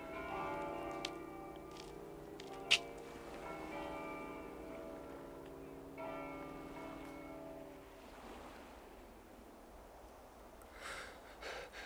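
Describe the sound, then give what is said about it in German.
Church bells ring in an empty, uninhabited town with a deserted factory. Sustained, humming bell tones with long decays gradually fade, leaving a quiet rushing background. “Die Glocken.”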